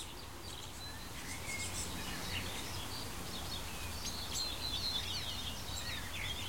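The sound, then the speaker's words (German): A tit's scolding call: faint, high, repeated chirps scattered over a steady low background hiss of outdoor ambience. “Jetzt schimpft eine Meise und schickt mich nach Hause.”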